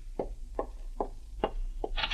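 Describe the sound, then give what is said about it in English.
Five firm, evenly spaced knocks on the door of an inn room, dull and fairly soft, with a brief brighter sound right after the last one. “And the following morning, as you pack your bags, there's a knock on the door of your room at the inn.”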